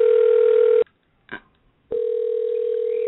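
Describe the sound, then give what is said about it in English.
A telephone line tone sounds while a call is being dialed: a steady, loud, even hum for under a second, a short faint burst in the silent gap, then the same steady tone returns and holds to the end. “So we're going to be dialing, and hopefully,”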